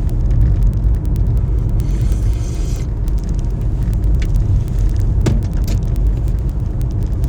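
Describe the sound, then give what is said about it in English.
Car driving on the road early in the morning toward the city, a continuous broad rumble of engine and tyre noise with a steady hiss on top, unchanging in level throughout with no talking. “as I'm driving here”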